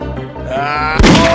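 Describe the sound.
A video game gunshot lands as one sharp, loud burst near the end, cutting across a sustained tonal background.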